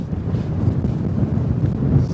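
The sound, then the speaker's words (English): Strong gusting wind on a mountain buffets the microphone as a steady, low, roaring rush with a coarse rumble underneath that holds throughout, with no voices. “the wind is so strong, it literally feels like we could be blown off the mountain”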